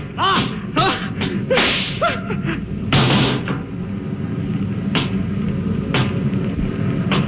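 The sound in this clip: Loud, sharp, whip-like gunshot cracks in a radio drama, several abrupt reports standing out over a low rumbling background.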